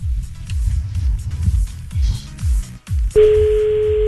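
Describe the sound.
A telephone ringing tone on an outgoing call sounds near the end as a steady, clear electronic hum. Low, rhythmic rumbling comes before it.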